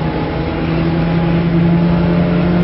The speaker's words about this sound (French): Voilà, je me trouve dans la voiture à partir de laquelle vous recevez ces images. Je vais me contenter, en ce qui me concerne, de vous donner les vitesses affichées au compteur. Nous sommes déjà à 60 actuellement. 70.